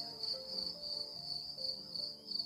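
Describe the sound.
A cricket chirps in a high, continuous pulsing trill, faint and steady throughout with no voices.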